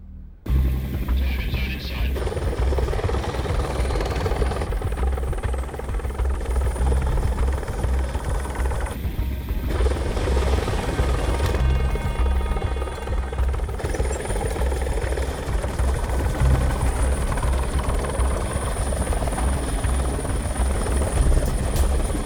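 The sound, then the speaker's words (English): Three helicopters fly overhead, one directly above, their rotors producing a loud, continuous thrumming drone that starts abruptly and holds steady to the end. “three choppers. One above us.”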